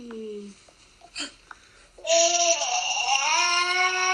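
An infant fussing on waking, with a few small whimpers and hiccup-like sounds, then a loud, high, sustained wailing cry that holds steady to the end.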